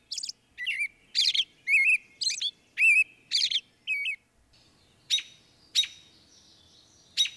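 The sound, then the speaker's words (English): Birds calling and singing: a run of eight quick, high, two-part chirps at an even rhythm, then after a short pause three fainter, more spaced-out calls, heard alone against a quiet background. “there's so much to think about within just a few seconds of hearing these birds talk to one another”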